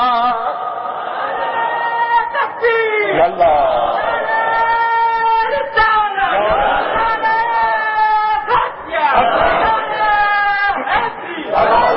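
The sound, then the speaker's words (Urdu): A large crowd chants a religious slogan in unison, many voices rising together in loud shouted waves. The chant is repeated several times with short dips between bursts. “اتنا بڑا مجمع اور اتنا ڈھیلا نعرہ, عجیب لوگ ہیں.”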